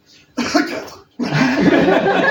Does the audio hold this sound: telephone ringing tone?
no